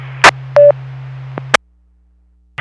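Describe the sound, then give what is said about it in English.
A radio repeater courtesy tone: a single short mid-pitched beep over a steady low carrier hum, framed by sharp squelch clicks and noise bursts, then the channel drops to silence. “If you hear that courtesy tone, that tells you you're on a repeater there.”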